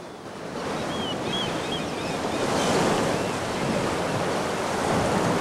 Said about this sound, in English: Waves crash over a rock on a sandy shore.